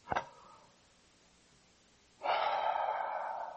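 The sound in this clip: A person takes a single long, soft breath after a short sharp click and a quiet pause.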